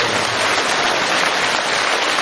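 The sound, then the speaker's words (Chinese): A ten-thousand-strong audience at a Buddhist assembly applauds. Individual claps blur into a loud, continuous hiss much like heavy rain, holding steady without any breaks. “谢谢大家，你们的掌声我都可以送给观世音菩萨。”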